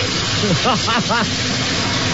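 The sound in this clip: Shower water running with a steady, even hiss of spray. Short vocal sounds rise briefly over it near the middle.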